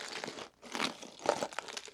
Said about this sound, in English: Oh, it's a box of bones. Yeah. Do you want to like shake it for some bone rattling ASMR?